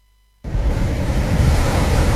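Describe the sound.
Ocean waves at Malalayang Beach start abruptly after a moment of silence, becoming a loud, steady roar of surf mixed with wind noise.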